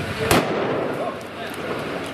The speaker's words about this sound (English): He shoots the Palestinian. Blood streams from his head. That was the shot that killed him.